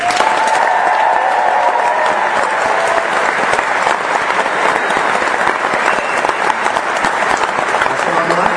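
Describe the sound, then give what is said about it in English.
Audience applause welcoming a bandleader onstage: dense, sustained clapping with cheering and voices mixed in, holding at an even level from start to finish. “Put your hands together and welcome our maestro, Professor Bob Dukach.”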